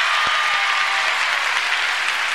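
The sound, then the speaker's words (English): A church audience claps hands together in praise, producing a bright, sustained rattle of many overlapping claps that stays steady and fairly loud throughout. “Let's give Jesus Christ a hand clap, everybody.”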